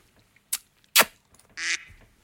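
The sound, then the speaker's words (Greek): A single short, nasal duck quack follows two sharp clicks. “Ακού λίγο ένα παπάκι.”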